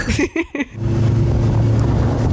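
Steady, loud engine drone of a large, stable motorboat pushing through very big waves, with constant rushing wind and water noise over a low, even motor hum.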